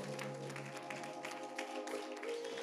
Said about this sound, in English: Come on, clap your hands.